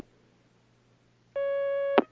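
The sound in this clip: Telephone line tone of an incoming call during a call-in question session, a single steady pure tone lasting well under a second, cut off by a sharp click.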